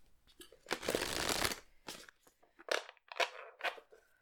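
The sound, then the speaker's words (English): Tarot cards being shuffled, a long papery riffle followed by a few shorter crisp flicks and slides, quiet and with no talk. “Okay, I'm gonna get some tarot cards now.”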